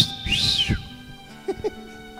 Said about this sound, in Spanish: Un silbidito, ¿eso qué tiene de malo, hermano? Yo le silbo a mi esposa.